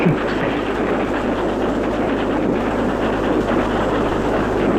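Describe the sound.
A locomotive train runs on rails with a steady, loud, unbroken rumble and rattle that holds an even level throughout. No voices are heard.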